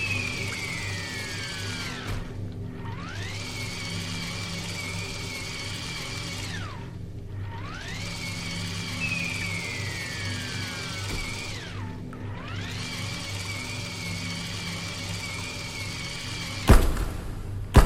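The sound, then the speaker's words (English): Motor whine of a vehicle driving forward over rocks in a video game, a steady layered drone whose tone dips sharply and climbs back three times, ending with a short harsh burst. “Let's drive forward here. Should be some more rocks in here.”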